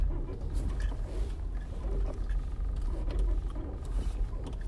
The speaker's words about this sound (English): You hear Jen's tire back there? Hear that?